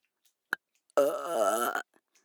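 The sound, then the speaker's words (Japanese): A single long, loud burp with a rough, pulsing voiced rasp lasts under a second, preceded by a short sharp click and followed by faint breaths. “なんでよりによってゲップなんだよ。”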